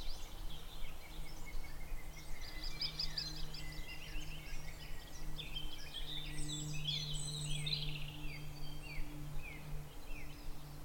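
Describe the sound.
Lesser spotted woodpecker calling in spring: a faint series of thin, high repeated notes over a low, steady background hum.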